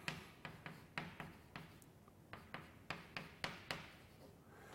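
Handwriting on a lecture surface, with a mathematical formula being written out. Many short, faint taps and strokes come in an uneven rhythm, some closely paired, with no talking over them.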